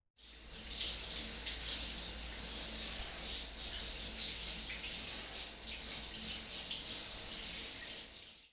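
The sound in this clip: Running water pours steadily while a baby is rinsed in a bath. It is a soft, continuous hiss that holds an even level for about eight seconds before stopping.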